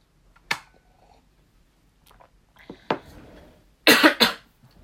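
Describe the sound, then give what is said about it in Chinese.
A person's dry coughs: one short cough, a few quieter throat sounds, then two loud, harsh coughs close together at the end, with no talk. “因为应该没有人连续讲35分钟的话还可以不咳嗽吧。”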